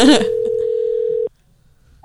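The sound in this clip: An outgoing phone call rings on speakerphone: one steady, mid-pitched ring tone lasts a little over a second and then cuts off abruptly into near silence. A voice briefly overlaps the start of the ring.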